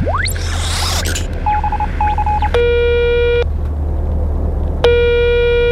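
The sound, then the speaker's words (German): Telephone dialing tones play over a steady low hum. A quick rising sweep comes first, then a run of short clipped beeps, then two long, buzzy, harmonic-rich tones separated by a pause. “Okay, warte mal, ich ruf mal Ava an. X-Funker, bitte parallel zu Yvonne einmal Ava anrufen von der Erde.”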